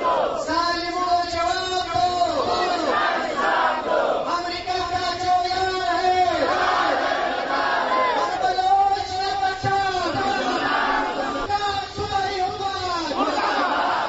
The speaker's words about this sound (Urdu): rally کے شرکا یہ نعرے لگاتے رہے